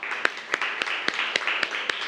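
Students in a classroom clap for a classmate. The soft, steady applause carries regular sharper claps standing out at an even rhythm throughout.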